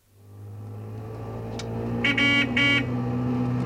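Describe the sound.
Low, steady engine drone of a two-stroke car driving along, holding an even hum throughout, with two brief buzzy horn-like blasts close together near the end.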